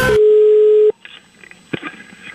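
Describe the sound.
A telephone line tone sounds as a call is placed: one loud, steady, mid-pitched beep lasting nearly a second, then cuts off to quiet background noise with a few faint rustles.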